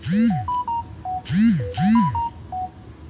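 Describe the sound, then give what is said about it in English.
Phone message notification tones come in quick succession: short stepped electronic beeps mixed with swooping chirps, the pattern recurring several times. “Hold on, y'all, because I'm getting texted. I'm receiving messages out the ass.”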